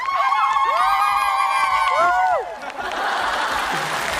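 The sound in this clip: A South African celebration cry comes first: high, sustained voices waver and bend in pitch. Then the audience breaks into cheering and clapping.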